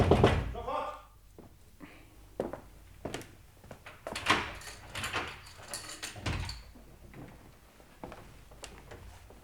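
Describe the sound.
A door being unlocked and opened at a law office: several sharp clunks and rattles, with people talking over and between them.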